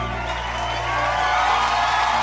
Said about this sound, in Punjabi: ਜ਼ੋਰਦਾਰ ਤਾਲੀਆਂ।